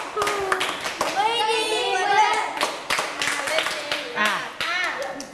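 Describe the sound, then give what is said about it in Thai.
Children clap their hands in a run of sharp, quick claps, mixed with their voices talking and calling out. “ปรบมือ5ครั้ง ปรบให้ง่ายกว่านี้ปรบใหม่อีกที”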